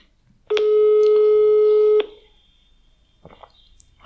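A telephone call tone sounds after a number is dialed: one steady, buzzing tone of about one and a half seconds, then near quiet with faint rustling.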